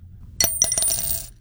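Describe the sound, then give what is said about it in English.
A single quarter drops into a jar: a bright metallic clink, then a couple of quick bounces and a short, fading ring. “That's the sound of a single quarter dropping into a jar.”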